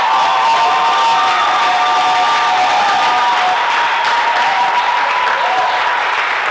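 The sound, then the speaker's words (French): A church audience cheers and applauds in a loud, continuous wash of dense clapping, with shouts and sustained vocal tones woven through it from start to finish. “Est-ce que tu peux acclamer le Seigneur? Est-ce que tu peux acclamer le Seigneur”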